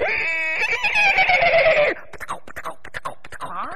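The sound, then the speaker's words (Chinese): An imitated horse neigh, part of a Henan zhuizi storytelling performance, wavers and falls in pitch for about two seconds, then gives way to talk. “树林外边听着有马蹄响了，这一回既然骑得起马，不用说这个人就有钱呐。”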